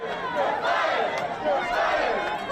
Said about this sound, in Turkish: Sokaklara dökülen Biden seçmenleri zaferi kutladı.